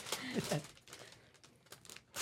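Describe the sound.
Paper crinkles and tears as a gift package is opened, the rustling bursts coming in quick clusters and then thinning out, with people talking over the unwrapping.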